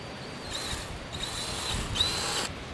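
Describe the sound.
A drill boring an extra hole in a brass collar, giving a steady high whine with a few short louder bursts as the bit bites, fairly faint throughout and without talk.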